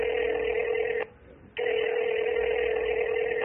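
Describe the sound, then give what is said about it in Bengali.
A telephone call ringing on the line: a steady, bright electronic ring tone that breaks off briefly and then resumes, heard alone. “ফোনটা করেই ফেললেন।”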